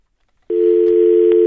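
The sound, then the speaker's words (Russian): A telephone line tone starts abruptly after a brief silence and holds as one loud, steady mid-pitched beep with faint clicks beneath, heard alone during an incoming call to a call-in program. “Так, еще у нас звонки идут. Алло, алло.”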